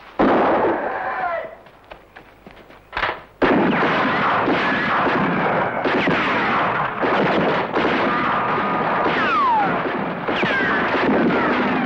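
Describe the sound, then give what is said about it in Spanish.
Loud, sustained gunfire during an ambush in a western, with dense overlapping shots and bursts, a brief lull, then continuous heavy firing that barely lets up. “¡Alto el fuego!”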